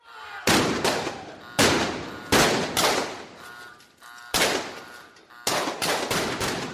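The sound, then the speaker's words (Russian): Panicked shooters fire irregularly, the shots striking ancient stone walls and columns: many sharp, loud cracks in uneven clusters, each trailing off in a rough decaying tail, with no voices. “Беспорядочные панические выстрелы культистов били по стенам, высекая из древней кладки снопы искр и крошки.”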